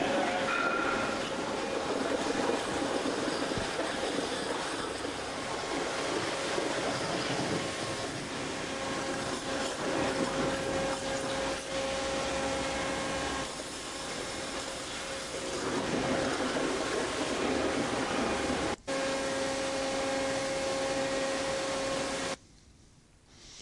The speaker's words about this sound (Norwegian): Det da tre vannskjærere som skjærer ut isolasjonsmaterialet.